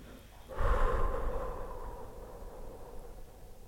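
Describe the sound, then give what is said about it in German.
Slow, long exhale blowing over a cup of cocoa: one breathy rush that starts fairly strong and fades gradually over a few seconds, with no voices. “Nun puste langsam über den Kakao, ganz langsam, mit einer langen und langsamen Ausatmung.”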